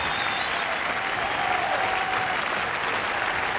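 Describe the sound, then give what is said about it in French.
Applause from the audience at the Zénith concert hall in Paris on 2 November 1987, calling for an encore: a dense, steady roar of clapping that holds at an even loudness throughout. “Mais comme vous pouvez l'entendre, en ce 2 novembre 1987, le public parisien n'avait pas vraiment l'intention de quitter la salle du Zénith sans obtenir un bis.”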